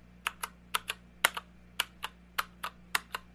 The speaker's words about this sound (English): All right, this is a mechanical keyboard. In fact, the whole point of mechanical keyboards is the fact that you don't have to press all the way down on the key